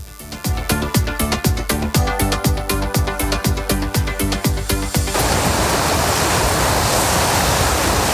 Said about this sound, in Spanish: Y este es el sonido de las olas que está escuchando en este momento Pedro Sánchez en la isla de Lanzarote.